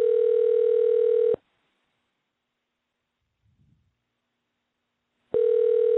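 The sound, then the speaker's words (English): A telephone tone heard while placing a call during a live show, a loud steady buzzing tone that cuts off abruptly, gives way to about four seconds of near silence with a faint rustle, then starts again. “We're dialing Pastor Carl. This is a live show tonight.”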